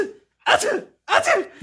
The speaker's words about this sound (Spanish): Que cuando yo comienzo a estornudar